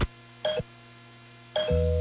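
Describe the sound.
A doorbell chime rings twice, the second about a second after the first, each a short bright ding over quiet background, followed by a low sustained tone.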